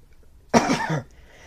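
A single harsh, raspy cough from food stuck in the throat: one short, loud burst with no talk around it.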